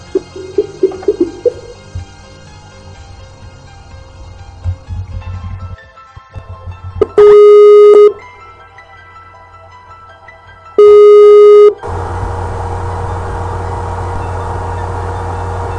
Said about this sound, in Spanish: Ok, pues vamos a hacer la llamada. A ver qué sale.